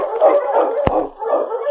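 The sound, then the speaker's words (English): Sled dogs on a Yukon winter trail barking and howling, a continuous mix of yelping cries and drawn-out howls with one sharp snap partway through. “Mike and the sergeant headed north on the Yukon Trail by dog sled. On King! On!”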